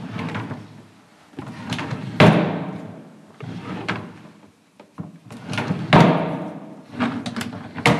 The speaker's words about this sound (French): Un tiroir qui s'ouvre et qui se ferme.